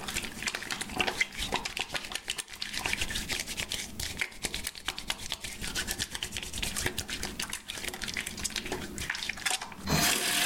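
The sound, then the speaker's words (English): Water runs from a tap as hands are washed, a faint, steady rushing hiss that continues throughout with small fluctuations and shifts in tone near the end. “This is the way I wash my hands, wash my hands, wash my hands. This is the way I wash my hands to avoid COVID-19.”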